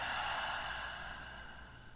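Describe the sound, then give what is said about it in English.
A slow, deep breath taken during a guided breathing exercise, heard as a steady airy rush that gradually fades over about two seconds, with no voice. “Another one, deep breath in and out.”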